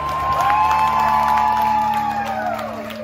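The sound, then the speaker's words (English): A crowd at a bus terminal in Brownsville erupts in applause and cheering as migrants step off a bus, with loud whoops and whistles over a continuous roar of clapping. “the place just erupted in applause”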